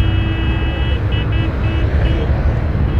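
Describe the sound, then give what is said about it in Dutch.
Heavy traffic roars along a busy motorway in a dense, continuous, loud wash of tyre and engine noise. Faint high tonal whines drift through the roar, which stays steady from start to finish. “Het is waanzinnig druk op de snelweg.”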